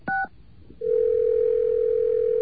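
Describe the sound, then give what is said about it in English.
Telephone dial tone: a short two-tone beep, a brief gap, then a loud, steady, unbroken hum that holds at one pitch until the end. “Let me grab another dial tone here.”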